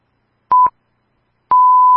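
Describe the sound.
Radio NRN 99.1's time signal marking nine o'clock: a short, loud, steady beep, then a pause and a long beep at the same pitch running to the end.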